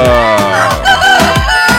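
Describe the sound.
A rooster crows loudly: a single full, harmonically rich crow lasting about two seconds, heard alone without talk.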